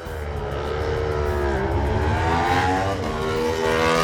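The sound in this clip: Super Twin motorcycles roar by during Race 2 of the Isle of Man TT, a loud, sustained engine drone whose tones slide up and down as the revs change.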